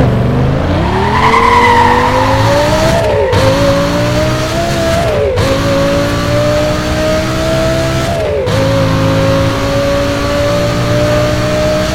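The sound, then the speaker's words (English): Lamborghini Gallardo engine with stock tuning in a racing video game, loud and continuous, revving steadily upward with three brief gear-shift dips before climbing again, with no voices. “Sound of engine. Lamborghini Gallardo. Need for speed most wanted. Stock pack.”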